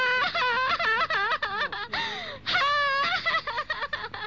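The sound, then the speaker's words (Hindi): A girl crying, a high wavering wail that rises and falls in pitch with a few breathy catches and sobs, heard continuously without other talk. “बेटी रोती क्यों है?”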